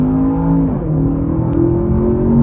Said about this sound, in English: So scaring my wife there is a twin-turbo mild hybrid V8 growling at idle and then roaring under acceleration.